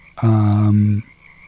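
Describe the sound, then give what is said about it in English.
Frogs croaking: one loud, low, buzzy call holds steady for nearly a second, then stops, leaving only faint background sound. “I should raise the volume a little bit. I'm hearing mostly frogs.”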